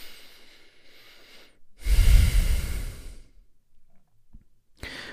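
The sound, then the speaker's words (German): A deep breath taken during a guided relaxation exercise: one long, loud, rushing breath lasts over a second between quieter stretches, and a shorter breathy sound follows near the end. “Schließ noch einmal deine Augen. Atme einmal tief ein und aus.”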